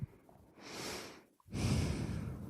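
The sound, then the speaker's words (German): Heavy breathing from a person: two loud, rushing breaths, a long one followed after a brief pause by a stronger, harsher one, with no talk over them. “Ich atme schwer”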